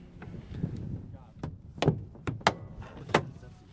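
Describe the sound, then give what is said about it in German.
Glider canopy on a two-seat ASK sailplane being shut and latched: a short series of sharp clunks and clicks, four distinct knocks in the second half, over a faint low rumble and soft voices. “Haube müssen wir jetzt schließen und verriegeln, dann geht's los.”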